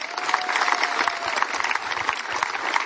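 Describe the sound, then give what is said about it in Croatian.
Applause greets a performer walking onto a festival stage, with many hands clapping in a dense, fluttering patter. A thin sustained tone briefly sits above the clapping early on, and the ovation stays fairly even throughout. “pa ćemo ga teplin aplauzom i pozdraviti.”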